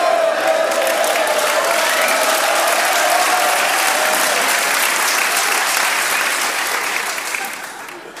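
Audience applause recorded for an album forms a steady, dense wash of clapping that holds even for about seven seconds, then tapers off toward the end.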